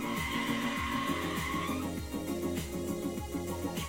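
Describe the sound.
Car tires skid and squeal over a loud, steady engine roar while driving, a continuous dense rush with repeated surging swells and no talk.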